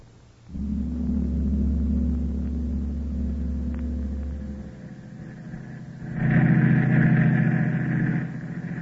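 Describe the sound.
In a radio drama, a car drives along a highway at night. A low, steady engine rumble starts abruptly and holds as a droning hum, then swells louder and brighter for a couple of seconds before easing back.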